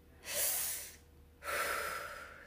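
A deep breath: one long airy inhale, a short pause, then a longer breathy exhale, both soft and steady, with no voices.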